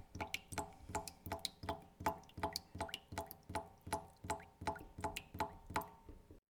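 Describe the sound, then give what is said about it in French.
Water drips from a badly closed tap into a stainless steel sink, making many faint, evenly spaced plinks in a steady rhythm. “encore un qui a mal refermé le robinet. Goutte à goutte, je suis la trajectoire de l'eau qui s'enfuit.”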